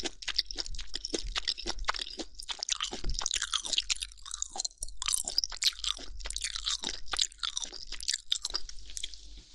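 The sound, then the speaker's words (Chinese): Someone chews and bites into chicken meat close up, with many quiet, wet, crunchy mouth sounds in an irregular rhythm and no talking. “果然是肌肉的部分最好吃，听说吃鸡肉还不会长胖哦，全是蛋白质。”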